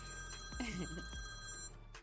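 A telephone rings with an incoming call, a quiet steady electronic tone with bright harmonic overtones that cuts off abruptly near the end.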